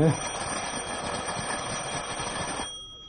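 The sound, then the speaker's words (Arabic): An apartment doorbell rings in one steady, shrill electric peal that holds for under three seconds and then cuts off abruptly, leaving faint background noise. “اضرب الجرس.”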